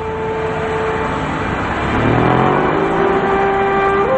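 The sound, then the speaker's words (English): Cars whiz along a street in bright daylight, a steady engine rumble with steady humming tones, growing louder about halfway through as a vehicle passes. “Cars are whizzing by.”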